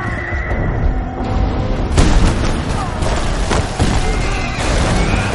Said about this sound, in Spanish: Una explosión tira a Antíope del caballo.